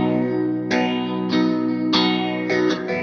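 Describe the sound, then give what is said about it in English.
An electric guitar from Grez Guitars, built to play with an acoustic-like character, is strummed through overdrive and phaser. Several full, ringing chords sustain one into the next with a swirling, slightly distorted shimmer. “It is an electric guitar for sure, but the fact that it plays like an acoustic. It's got that sound to it.”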